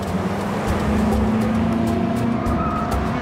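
A car aquaplanes and skids on a wet road, its engine roaring loud and unbroken while a steady humming tone and tire noise run underneath for the whole moment.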